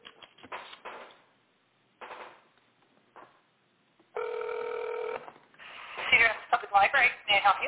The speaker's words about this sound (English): It takes a long time to dial that.